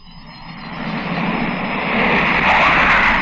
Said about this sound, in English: The sound you hear is a twin jet British Canberra bomber as it left the coast of Ireland at more than 500 miles an hour.